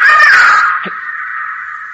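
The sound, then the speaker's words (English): A bird calling, a single drawn-out, high wavering cry that settles into a thin, steady tone and slowly fades. “What was that? Bird. You sure? I'm sure.”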